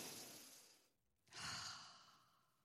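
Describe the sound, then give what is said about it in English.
A deep cleansing breath: a long, breathy rush of air, a brief silent pause, then a second, louder and longer breath that slowly fades. No speech. “Let me just take a breath. Here we go. Let's do a cleansing breath.”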